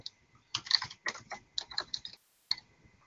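Keys clatter on a computer keyboard as someone clicks and presses them. Faint, irregular bursts of clicks come in quick clusters, then a short silence and one last tap.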